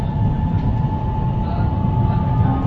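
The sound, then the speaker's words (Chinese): Metro Line 1 train bound for Fujin Road, a steady, loud rumble of the moving carriage with a faint constant hum running through it and no break in the noise. “欢迎乘坐1号线，本次列车开往富锦路。”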